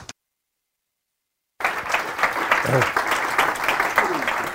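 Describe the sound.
Audience applause welcomes speaker Luke Harding, starting abruptly after a silent gap and continuing as steady, dense clapping to the end.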